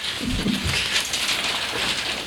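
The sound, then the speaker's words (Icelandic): Hail falls outside as a continuous, dense hiss of countless small impacts, holding a steady level throughout. “það er farið að regna haglíli fyrir utan”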